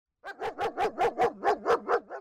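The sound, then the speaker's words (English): A 2-year-old German Shepherd sheriff's dog tracking a person's scent gives about nine quick, yelping barks in an even rhythm, fairly faint and alone, with no talk. “This is the sound of a sheriff canine tracking me.”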